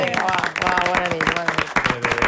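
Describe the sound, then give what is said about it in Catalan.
An audience applauds to greet a guest on a talk show, with a steady patter of clapping heard beneath a speaking voice. “Us demano, sisplau, un aplaudiment ara per saludar la propera protagonista del Tu Diràs”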